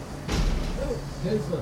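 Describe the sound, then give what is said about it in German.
A door is shut in an improvised 1980s-style horror radio play: one sudden thud near the start, followed by voices talking. “Jetzt mach die Tür zu. Nein, nicht das Fenster, ich mach die Tür.”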